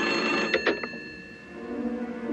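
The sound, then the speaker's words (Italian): Telephone ringing with a sustained, bright, buzzing tone rich in overtones, lasting throughout, with a few short clattering bursts early on. “Il protagonista Trintignant, che nel film si chiama Marcello Clerici, riceve una telefonata.”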